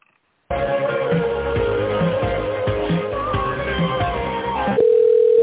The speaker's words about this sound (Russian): Сейчас, секундочку, я вас переключу.